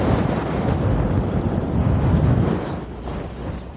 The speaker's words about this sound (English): Oh, that's cold. Jeez. Yeah, I turned north again. I've got the wind square in my face.